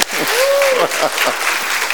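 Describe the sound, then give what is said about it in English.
Audience applause rings out as people cheer a man presented with a can of lighter fluid. The clapping is dense, steady and loud for the whole stretch, and a single whistle rises and falls near the start. “So give him a round of applause.”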